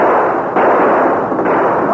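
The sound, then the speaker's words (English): Loud gunfire from a Colt revolver and pistols in a shootout, the blasts merging into one sustained, harsh roar that stays at full strength throughout. “as Bowlegs and the professor fired, the Lone Ranger's Colt roared.”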